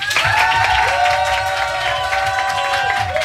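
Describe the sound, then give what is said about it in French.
Loud applause and cheering from a crowd in a bar welcoming a guest, with dense clapping and a long sustained shout riding over the noise. “vous allez pouvoir faire un maximum de bruit puisqu'on accueille Benjamin, le directeur d'Escape Yourself Angers.”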